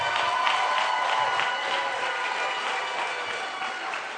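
Audience applause rises to welcome two pastors, a dense, steady wash of clapping with some crowd noise that holds at an even loudness throughout.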